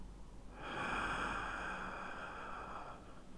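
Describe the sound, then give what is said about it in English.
A single deep, airy breath is drawn slowly through the nose and mouth, lasting a couple of seconds. It is faint and soft, with no talking. “And let it out. Deep breath.”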